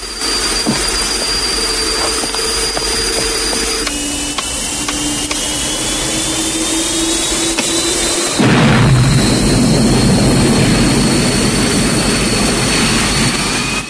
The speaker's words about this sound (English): throws the plane's thruster forward and they set off down the runway